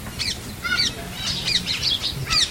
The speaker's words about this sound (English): And also the spring season was also sent there, and nice birds like this,